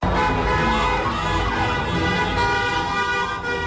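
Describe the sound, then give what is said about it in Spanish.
Car horns toot in the streets of Cuenca in the early morning as crowds celebrate a World Cup final win over Argentina. The overlapping honks form a dense, loud, continuous din of traffic noise. “Sonido de claxones de vehículos y gritos de alegría.”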